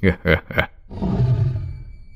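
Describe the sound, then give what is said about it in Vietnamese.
A tiger roars loudly in one long, deep, rumbling call that swells and then slowly fades, following a few quick spoken syllables. “Con hổ gầm lên một tiếng thật lớn.”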